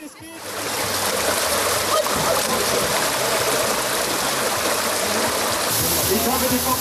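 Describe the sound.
Rushing, splashing water at an outdoor swimming pool water slide where children play. The sound is loud and continuous throughout, with voices mixed in.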